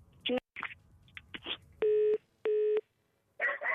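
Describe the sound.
Telephone busy tone after the other party hangs up: two steady, identical beeps of equal length with a short gap between them, surrounded by brief clicks and noisy fragments of line sound.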